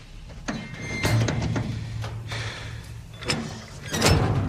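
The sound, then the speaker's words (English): Metal container door swinging open after its levered handle is pulled up, with a few clunks and scrapes over a low rumble and a louder knock near the end. “She pulls the levered handle up into the side, then swings it open.”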